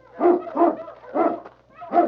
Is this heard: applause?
no